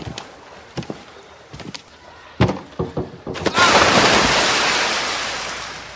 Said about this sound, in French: Bon, regarde-moi sauter du grand plongeoir.